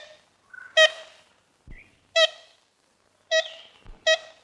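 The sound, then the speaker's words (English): A large black-and-white woodpecker with a red crown, a species since delisted, gives four loud, nasal, horn-like toots in an uneven series, with a few softer high notes in between and near-silence around them. “They have black and white bodies and a bright red sort of crown on their heads. Here's what they used to sound like.”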